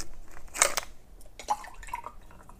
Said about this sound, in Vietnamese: hôm nay mình không có trái cây thành ra là mình sẽ uống sủi cam mọi người đợi mình xíu nha ASMR nè